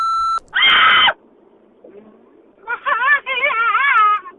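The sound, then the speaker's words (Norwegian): An answering machine beep plays from a tape player: a steady electronic tone, then a short harsh buzzy burst, then a longer wavering, voice-like warble. “La oss høre på telefonsvareren, Tore. Du har lagt den klar I båndspilleren.”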